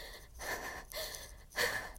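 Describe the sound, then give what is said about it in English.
Heavy, ragged gasping of a person out of breath after running through a swamp: a quick series of loud, rasping breaths separated by brief pauses, with no talk. “I must stop, catch my breath, and I must be smart.”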